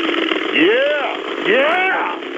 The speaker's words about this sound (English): I'm sorry, Phil. This is a friend of mine. He just rebuilt his engine.